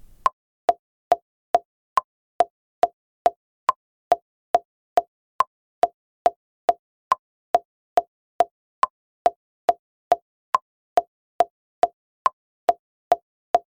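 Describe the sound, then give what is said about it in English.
LMMS software metronome ticking at 140 BPM: about thirty crisp, evenly spaced clicks, every fourth one higher and accented, with silence between them. “Normally, LMMS starts in 140 beats per minute. I'll use the metronome to let you hear the beat at 140 BPM.”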